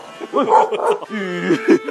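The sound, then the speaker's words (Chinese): A dog barks and yips in a quick run of short, high, yelping calls, loud and tightly spaced. “狗咬人啊，狗拴好没？”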